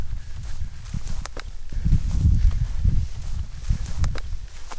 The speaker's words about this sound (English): Well, he's got a little bit of a path here to walk down. I wouldn't say he's walking fast, but he's moving along pretty good.